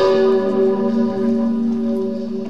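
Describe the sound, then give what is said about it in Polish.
A huge historic cathedral bell rings for a major religious feast day, making a deep, steady, droning tone with strong layered overtones. It sounds continuously through the whole clip without separate strokes standing out. “No i dzisiaj takie wielkie święto i to dzwon Zygmunta”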